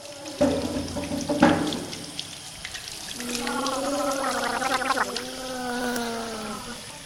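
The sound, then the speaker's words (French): Children brush their teeth with water running from a tap, with two sharp splashes early on, then a long, wavering, bubbly gargle over the steady flow. “qui se lavaient les dents”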